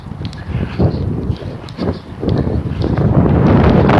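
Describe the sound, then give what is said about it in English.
Heavy wind buffets the microphone outdoors with a broad, rough roar of uneven gusts that swells and grows louder, holding strong through the last seconds, with no voices. “Yeah, this clearing off to the north. Coming out into the heavy wind now.”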